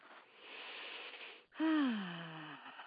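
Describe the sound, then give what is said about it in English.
A person takes a deep breath: a long, breathy inhale, then a louder voiced exhale like a sigh whose pitch slides downward and fades. “Okay, I'll take a deep breath.”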